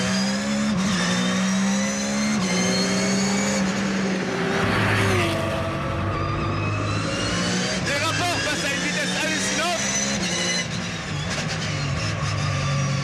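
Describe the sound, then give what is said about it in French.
Race car engine revving hard to 9500 rpm on track, a loud, continuous raspy howl whose pitch climbs repeatedly and steps down through several gear changes. “Moteur qui prend 9500 tours. Vous avez bien entendu, 9500 tours.”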